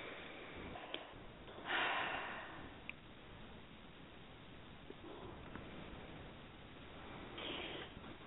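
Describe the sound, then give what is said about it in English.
Two slow, deep breaths during a guided meditation, each a soft, airy whoosh, faint and spaced several seconds apart. “And we'll just take two nice deep breaths.”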